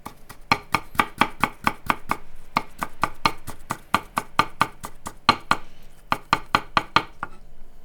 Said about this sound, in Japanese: まず生姜ですね生姜をみじん切りにしていきます